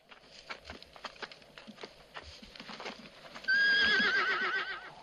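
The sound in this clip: A horse neighs loudly as it is pulled up, after a run of quiet clip-clopping hooves; the long, shaky, high whinny fills the final second and a half.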